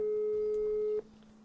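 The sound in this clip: Steady telephone busy tone on a call that won't connect: one continuous mid-pitched tone holds for about a second, then cuts off abruptly, leaving a faint low hum.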